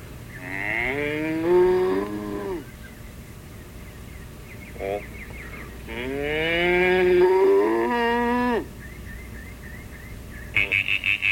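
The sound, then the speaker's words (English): A cow moos twice in long, low, harmonic-rich calls, each lasting about two seconds with a gliding pitch. A brief burst of rapid pulsing sounds follows at the very end. “Cow.”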